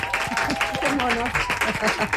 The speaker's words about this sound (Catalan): Un aplaudiment per vosaltres mateixos.